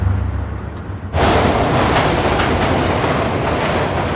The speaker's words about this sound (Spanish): Pasa un tren.